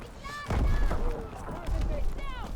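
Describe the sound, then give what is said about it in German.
Sniper rifle quickscope shots in a video game: two heavy, sharp bangs stand out against busy game noise, with voices talking throughout. “Sniper-Typ hier. Oh, da wurde gequickscoped.”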